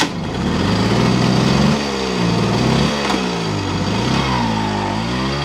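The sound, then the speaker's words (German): A moped engine circles a market square, its buzzing note rising and falling in pitch over and over as the rider speeds up and eases off, steady and loud throughout. “fährt mit seinem Moped auf dem Marktplatz im Kreis”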